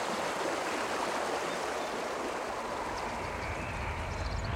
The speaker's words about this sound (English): The boy falls into the river.